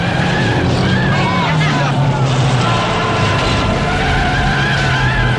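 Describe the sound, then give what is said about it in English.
A stock car skids and swerves on a snowy, icy road during a busy race, with loud, continuous engine roar and tire noise and a voice speaking over the din throughout. “joins the busy stock car race. She swerves on the snowy roadway.”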